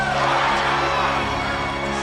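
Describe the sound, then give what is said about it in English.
A crowd cheers at a horse race after the tenth race's winner is called, a continuous, loud roar of many voices that barely dips throughout. “Why are they cheering? I'm having a very good day. Trotter and Pam kiss as the crowd around them goes wild.”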